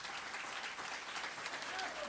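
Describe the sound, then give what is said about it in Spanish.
Audience applause for the organizers of a radio contest, an even, steady patter of many hands clapping, fairly faint, with some voices mixed in. “Y yo pido un aplauso para todos los organizadores, todos los que trabajan aquí en esta radio.”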